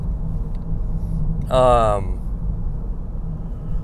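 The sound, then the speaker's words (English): Car driving, a steady low engine and road rumble that continues throughout, with a brief voice over it. “So I'm driving to the Everett Historic Theater. Right now I'm driving to Staples so I can pick up some promotional material”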